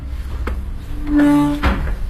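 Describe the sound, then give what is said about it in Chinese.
A door is pushed open into an unmanned smart hotel behind a Soviet-style concrete courtyard wall. A soft knock comes first, then a sustained tonal hinge creak and a final thump. “现在我们就推开门进去”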